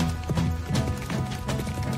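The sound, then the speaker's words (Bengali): Hooves clip-clop steadily as a six-horse carriage and a convoy of a hundred mounted soldiers move off together. The many fast, overlapping hoofbeats form a continuous, even rhythm. “আধ ঘন্টা পর ফুকের 6 ঘোড়ার গাড়িকে মাঝখানে রেখে 100 সেনার convoy ভয়ের পথে চলতে শুরু করল।”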